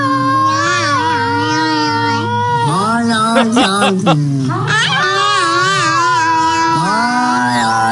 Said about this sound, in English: that one cat that goes, ow, ow, ow, ow